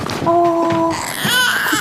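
An infant cries in two loud, high-pitched wailing bursts, each a sustained tonal wail with a short break between them.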